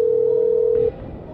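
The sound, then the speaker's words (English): A telephone ringback tone from a call to a restaurant: one steady, even tone held for nearly a second and then cut off, leaving faint line noise. “You've decided to call a Red Lobster.”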